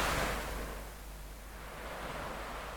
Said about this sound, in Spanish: con ese maravilloso ruido de mar,